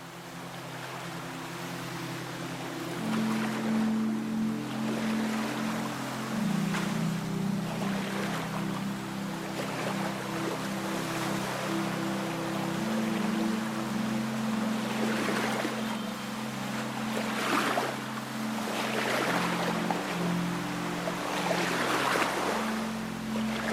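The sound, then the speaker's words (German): A sailing catamaran gliding peacefully over the water, with steady wash of water and wind and gently swelling waves over a low, constant drone, no voices. “Friedlich gleitet dein Katamaran an den Szenen vorbei.”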